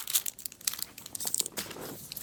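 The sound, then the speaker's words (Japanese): A chocolate-flavoured protein bar's wrapper crinkles and tears open in sharp, irregular crackling bursts, fairly loud and close, with a few quick rips among the rustling. “ネイチャーカーから発売になってますプロテインバー、食べたいと思います。”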